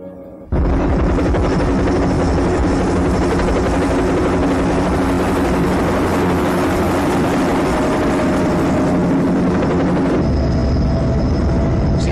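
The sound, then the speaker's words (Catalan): A helicopter's loud engine and rotor drone starts abruptly after a short quiet moment, then holds steady for about eleven seconds, with a constant deep rumble under a thin, high whine. “Aquest helicòpter el tiraria d'alta baix.”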